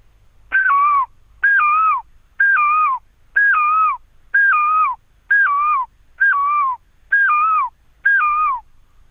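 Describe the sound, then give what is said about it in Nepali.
A person imitates the call of a great barbet: nine evenly spaced, loud, whistled calls, each with two tones that drop in pitch at the end, with no other sound. “ए न्याउलीको पनि बजाउने लौ न लौ।”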